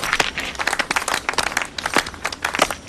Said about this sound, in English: Congratulations. Looks like you're going to the next round, preacher. Applause.